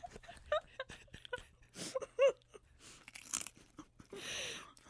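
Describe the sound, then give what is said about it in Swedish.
Potato crisps crunch and are chewed close up during a quiet ASMR-style tasting. The bites come as soft, irregular crackles at low volume, with a few sharper snaps among them. “Okej, det där var första chipset. Ja. Nu kommer jag äta det andra.”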